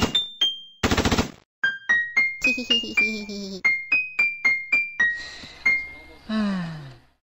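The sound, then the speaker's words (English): Assault rifle fire from a video game: many sharp, loud shots in quick, uneven bursts, each decaying fast with a ringing, tonal edge, with no talk over them. “I remember the first time Master Chief used an assault rifle. It was so cute. Assault rifle.”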